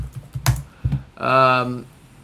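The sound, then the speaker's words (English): Typing on a computer keyboard while searching online: a few sharp, separate key clicks, followed by a short voiced sound. “Let's just type Estadio Estudiantes de la Plata.”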